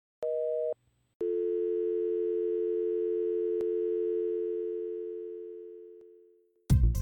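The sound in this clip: Telephone line tones after dialing a number that is not in service: a short steady beep, a brief gap, then a long unbroken tone that gradually fades away, ending in a short burst of different sound.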